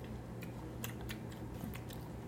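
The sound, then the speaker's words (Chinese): A teacher eating quickly at school: crisp chewing and biting with a run of many soft crunches and mouth clicks over a low steady hum, fairly faint, no voices. “嗯， 好好吃。 对啊， 老师，你吃的好快哦！”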